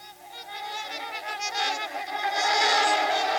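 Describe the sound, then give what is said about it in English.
Honking swan calls, from swans at Disney with voices like the trumpeter swan, sound as a continuous run of nasal, overlapping honks with no talk, growing louder and busier toward the end. “The mute swan is native to Europe, but was introduced to North America. There's even a wild colony living in Ashland, Wisconsin. But Disney's swans make vocalizations similar to the trumpeter swan.”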